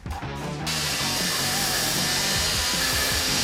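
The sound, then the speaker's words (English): Loud, steady whirring grind of a tool working magnesium metal. A brief rougher burst opens, then the sound settles into an even, continuous high-pitched drone that holds unchanged to the end. “No sparks. Really easy to grind, but no sparks. It's basically like grinding a stick of warm butter, let's be honest.”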